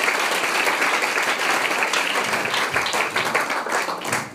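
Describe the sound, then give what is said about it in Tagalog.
Church audience applauding God during a sermon, a thick, loud and sustained burst of many hands clapping that holds steady and eases slightly at the end. “Palakpakan natin ang ating Diyos na buhay, mga kapatid.”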